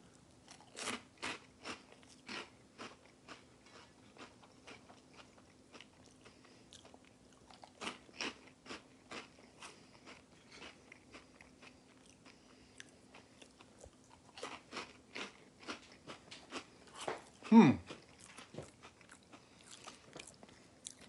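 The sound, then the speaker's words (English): Crunching bites of spicy corn-based hot fries from a dollar store: many sharp, dry crackling crunches in irregular bursts, mostly quiet, with one louder, heavier crunch near the end and no talking. “And then this is the hot fries. So let's try these out. Here we go. How do the Dollar Tree Andy Capps hot fries taste?”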